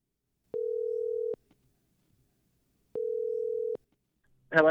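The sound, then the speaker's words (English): Ringback tone of a telephone call being placed: two evenly pitched electronic rings, each under a second, separated by a long silence, followed by a voice starting to speak at the very end. “So here we go. We're dialing it up.”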